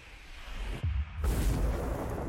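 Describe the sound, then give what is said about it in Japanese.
Explosions in a promotional music video: deep, rumbling booms over a continuous noisy roar, with a sudden low burst near the middle that swells into a sustained rumble. “あ、全部爆発しますからね。 はい、とりあえず爆発するわけですね。”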